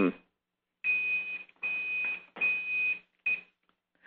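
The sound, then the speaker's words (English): A kitchen timer goes off while an artichoke cooks in water: a steady, high-pitched electronic beep in several bursts of uneven length, with a voice speaking alongside. “my timer just went off. I'm cooking an artichoke.”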